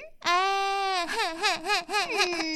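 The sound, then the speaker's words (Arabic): A child cries to get something, starting with a loud, sustained high wail that breaks into a wavering, sobbing pattern of repeated pitch swings, heard alone. “نعم بكاء الأطفال عندما يريدون الحصول على شيء.”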